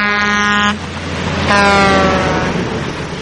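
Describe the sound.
Loud air horns from Mack trucks racing on a racetrack, two long droning horn blasts separated by a brief gap, over a steady heavy rumble of engines.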